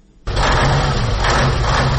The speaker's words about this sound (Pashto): زه له داسې یو موټر چلوونکي سره په موټر کې ناسم چې له قانوني وزن یې یو نیم ټن زیات سیمنټ پر کړی.